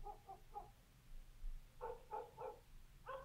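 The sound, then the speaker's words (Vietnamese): Dogs barking around village houses, faint and short: a few quick barks in one burst, a pause, then another cluster of barks, all over a low background hum. “tiếng chó của mấy nhà dân ở xung quanh sủa lên nhấm nha nhấm nhặng.”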